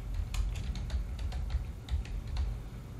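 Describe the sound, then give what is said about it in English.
A memo is typed on a computer keyboard as a steady run of many soft key clicks over a low background hum. “And we'll just type in a memo virus protection.”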